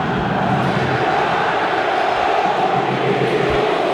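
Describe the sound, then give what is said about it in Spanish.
Racing football fans in Avellaneda erupt in disapproval at the final whistle of a 2-0 home defeat to Belgrano, a loud, continuous crowd roar with jeering and insults. “Insultos a Diego Milito directamente. Directamente contra el presidente. Estalló el público de Racing con el final del partido y con el segundo del Mudo Vázquez.”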